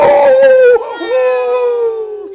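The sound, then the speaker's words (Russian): A she-wolf's single sustained, loud howl wavers and breaks midway, then settles into a long tone that slowly falls in pitch. “А вот и волчиха пожаловала.”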